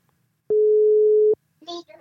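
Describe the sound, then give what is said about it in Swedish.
A telephone ringing tone while calling a listener: one steady, mid-pitched electronic tone lasting under a second, followed shortly by a brief voice. “då ska vi såklart ringa upp”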